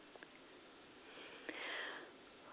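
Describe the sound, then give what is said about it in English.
A deep breath drawn in during a guided group meditation: a faint, airy inhale through the nose that swells briefly and fades, with no talk over it. “Nice deep breath, everybody.”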